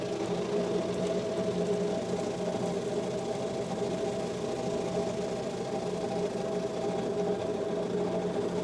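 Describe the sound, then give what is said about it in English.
A large bread slicer machine runs while slicing a loaf of white bread, giving off a steady mechanical hum and whir with a faint buzzing vibration. The sound stays continuous and even throughout. “see, this is our slicer. That's a big machine. Put this all the way down. Now. Okay. Ready? Yeah. You watch the bread.”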